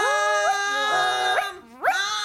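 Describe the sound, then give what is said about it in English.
A puppy whimpering and howling in a run of drawn-out, whining cries that slide upward in pitch. Each cry is loud and heard alone. “And it wriggled away and tore his coat, and then the dog ran off down the road. No! Come back, puppy! Come back!”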